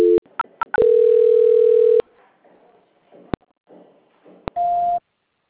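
Telephone line tones sound during a call transfer. A few short beeps lead into a steady tone lasting just over a second, then faint line noise and a click, and finally a second steady, higher-pitched tone.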